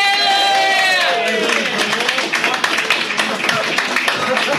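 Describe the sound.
A live roast show audience welcoming a guest, with cheering voices and a crowd clapping that grows into scattered, rhythmic claps, loud and lively throughout.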